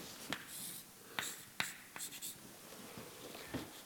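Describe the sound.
Handwriting on a surface while a math expression for polynomial formulas is being worked out: a few short, faint scratchy strokes in irregular bursts, separated by quiet gaps and with no talking.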